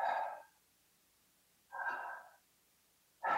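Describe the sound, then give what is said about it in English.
Breaths drawn in and pushed out: two full airy, noisy breaths followed by the start of a third, each rising and fading, alone with quiet between them. “So if you inhale, and then exhale.”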